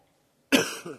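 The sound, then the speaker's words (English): A single rough cough from someone fighting off a lingering illness. It bursts loudly out of silence, then trails off with a smaller second push of breath. “Excuse me this morning if I cough a little bit and spit and sputter. I'm trying to get rid of this thing.”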